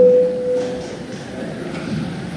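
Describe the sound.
A signal tone sounds in the Latvian parliament (Saeima) chamber as a vote is called: a single steady mid-pitched electronic tone at the start that fades quickly into a low background hum.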